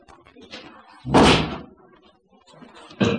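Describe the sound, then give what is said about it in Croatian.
A chest of drawers is moved, giving loud heavy thumps and bangs of wood. Two strong knocks stand out, with smaller knocks and rustling between them. “Prokleta domaćica, premješta komodu”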